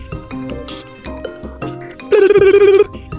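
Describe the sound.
A telephone ring tone sounds while a call is placed: one loud, steady buzzing tone of under a second near the end, after softer mixed sounds.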